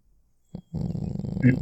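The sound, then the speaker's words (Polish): A voice imitates a cat purring during a tabletop role-playing session: a brief low burst, then a steady, rough, low rumbling purr that continues to the end. “Słyszycie, słyszycie jak mruczy.”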